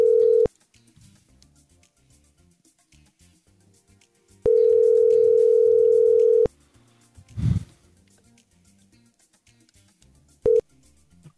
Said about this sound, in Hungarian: Hát akkor hívjuk fel a naphallgatóját így ennek a kis csendes keddecskének a végére.